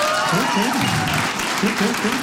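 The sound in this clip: Audience applause erupts in a room when asked who has kids, a dense, steady wash of clapping through the whole clip with a voice over it.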